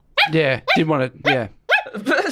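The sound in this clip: A woman's voice imitating a dog barking, giving a few loud, throaty woofs in quick succession with short gaps between them.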